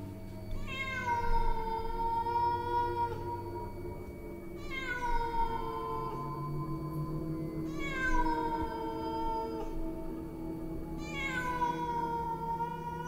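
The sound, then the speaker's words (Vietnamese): A black cat meows four times, each cry a drawn-out, clearly pitched wail spaced a few seconds apart, over a steady low hum. “Trong lòng của anh ta ẵm một con mèo đen. Con mèo đang kêu lên vài tiếng, ánh mắt xanh lè lè nhìn chăm chăm về phía ông Hoạt.”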